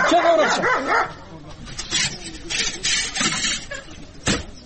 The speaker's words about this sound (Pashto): جان محمد اکا سپی دی نیسه چې اومو نه داړي. راځی راځی، نه مو داړي.